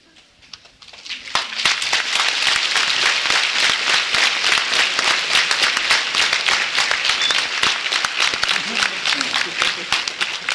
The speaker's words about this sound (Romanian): Puneți la inimă, domnii mei și iubiții mei, reacția acestui popor care de obicei la slujbe nu aplaudă.